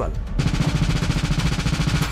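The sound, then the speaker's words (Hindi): Gunfire breaks out at a street festival in Toronto: after a brief muffled lead-in, a sustained volley of many rapid, evenly spaced shots rattles on for nearly two seconds, loud and continuous over a dense background noise. “Festival में गोलियों की तड़ताहट, अफरा तफरी का माहौल, चीखते चिल्लाते लोग।”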